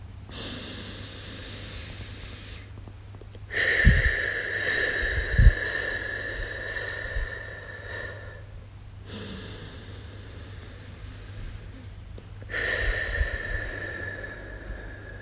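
Slow, deliberate breathing in and out, soft airy swells of breath separated by long quiet stretches, a few unhurried breaths in all.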